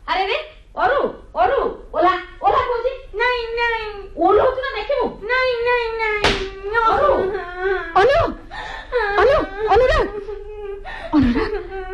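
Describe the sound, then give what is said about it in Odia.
A young boy cries in a long run of high, wavering sobs and wails. Many short voiced bursts follow one another with barely a pause, loud throughout. “କାନ୍ଦନା ପୁଅ ମୋ ସୁନାଟା ପରା କାନ୍ଦନା ନାଇଁ ନାଇଁ କାନ୍ଦନା”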